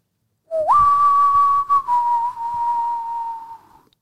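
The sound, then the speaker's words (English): A man whistles a call for children to come home: one long, loud whistle that starts with a quick upward slide, holds a steady high note, breaks briefly, then holds a slightly lower note before fading. “that was my dad whistling for us to come home.”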